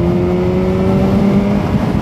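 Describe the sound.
A Harley-Davidson motorcycle accelerates past on a group motorcycle tour through southern Norway. Its loud, steady engine drone carries a clear tonal hum throughout, with no other sounds.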